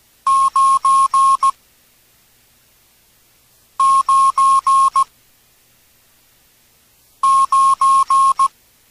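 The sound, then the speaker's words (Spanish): Morse code for the digit nine in an amateur-radio practice lesson, a mid-pitched tone keyed as four longer beeps and a short one. The group sounds three times, with long silences between groups and no talk. “Esperemos hayas aprendido los números en código Morse.”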